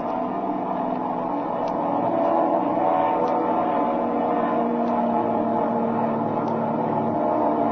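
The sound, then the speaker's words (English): A propeller plane engine drones steadily, a loud, even rumble with a coarse buzzing texture that holds throughout. “Getting the idea. See? His prop's slowing up.”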